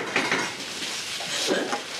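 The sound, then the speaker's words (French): Peppers are stirred in a pan, giving a continuous clatter of a utensil scraping and knocking against the pan, busy and fairly steady, with no talk. “Il faut surtout penser à bien remuer les poivrons sans arrêt. Voilà, parce que sinon ils vont attacher,”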